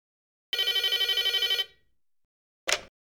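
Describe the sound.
A telephone rings before a call to a hotel reception: one rapid, trilling electronic ring lasting about a second, a pause of silence, then a single short, sharp burst.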